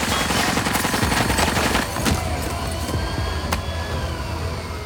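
Gunfire erupts during a police hostage standoff, a dense, continuous barrage of loud shots with sharp cracks standing out, filling the whole stretch without pause.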